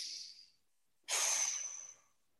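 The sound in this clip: Slow, deliberate breathing meant to calm down: a soft airy inhale, a short pause, then a longer and louder breathy exhale, heard alone without talk.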